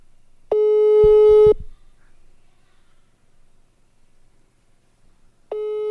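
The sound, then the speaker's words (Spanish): Telephone busy tone on a dialed call: a steady electronic tone lasts about a second, with a few faint clicks under it, then a long silence before the tone starts again at the end. “le estoy marcando. Ahí está, ¿no?”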